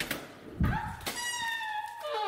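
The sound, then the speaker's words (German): A little advent calendar door opens with a soft thud, then a long, thin squeaky creak that holds steady before fading out. “Und heute öffnen wir das 5. Türchen.”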